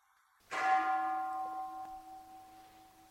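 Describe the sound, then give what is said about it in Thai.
A bell rung during a mindfulness-of-breathing meditation gives a single clear strike, then a steady ringing tone that slowly fades. Near silence comes before the strike. “ฟังเสียงระฆัง”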